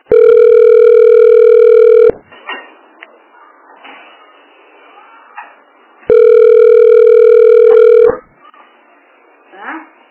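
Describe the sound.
Telephone ringback tone while calling a health clinic: two long, steady mid-pitched tones of about two seconds each, separated by several seconds of faint, muffled background noise.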